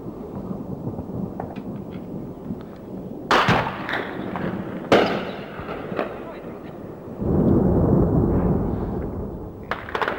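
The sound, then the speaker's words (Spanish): Bombs and burning fuel explode at an airport under air attack during the Falklands War. A few sharp blasts break through a low background rumble, followed by a longer, heavy rolling roar. “Siguen las explosiones en el aeropuerto que podrían ser originadas, además de las bombas, por los combustibles que explotan.”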